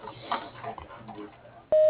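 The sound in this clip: A voicemail beep sounds as a single loud, steady electronic tone that cuts in abruptly near the end, after a faint low murmur, and holds at an even pitch.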